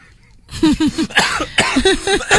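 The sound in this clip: A person coughing in a quick run of short, voiced, throaty bursts that come in clusters, fairly loud, with no words spoken.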